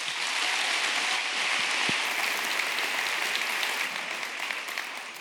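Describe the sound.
An audience applauds to welcome actor Kirk Cameron, a thick, continuous wash of many hands clapping at a steady, fairly loud level from start to finish.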